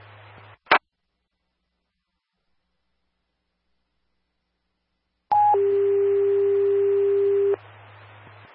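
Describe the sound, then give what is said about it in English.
Radio dispatch alert tones for a fire engine: a single brief click, a long silence, then a short higher tone that steps down into a long, steady lower tone over a hiss of radio static. “stand by for tones”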